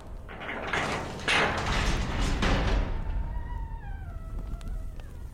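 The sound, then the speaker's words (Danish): A gate is opened: a broad, rough scraping rush gives way to a long, high, wavering creak that slides downward in pitch and fades, with no voices. “jeg åbner lige porten nu”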